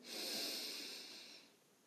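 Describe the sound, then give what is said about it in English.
A single deep breath drawn in during a calm mindfulness breathing exercise: a steady, airy hiss that swells quickly, holds, then tapers away, with no talking. “right now as we take three deep breaths. Let's breathe in”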